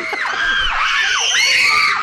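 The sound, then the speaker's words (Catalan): Screaming from many people at once, loud overlapping high-pitched shrieks and yells that rise and fall without a break. “Això serà els crits.”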